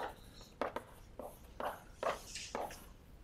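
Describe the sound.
Faint, short scratchy strokes of writing on a board during a mathematics lecture, coming as several separate quick scrapes with brief gaps between them over a quiet background.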